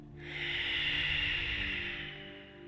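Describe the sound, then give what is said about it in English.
A single long, forceful exhale during a guided breathing exercise: a steady, airy rush of breath lasting over two seconds that eases off near the end, with a faint low steady hum underneath. “Double inhale into the chest. Full, strong exhale.”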